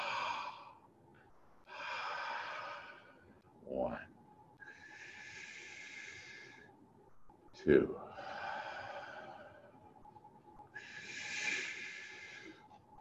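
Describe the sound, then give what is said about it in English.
Slow, deep breathing in and out as a guided exercise, long soft airy whooshes that swell and fade one after another, each drawn out over a few seconds. “we're going to start in 5 seconds in and 5 seconds out. Breathe in.”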